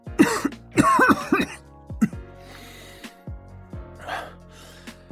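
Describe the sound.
Coughing from a man who has had a phlegmy cough for days and smokes. A series of harsh coughs and throat clearing starts loud, then fades to smaller, fainter coughs.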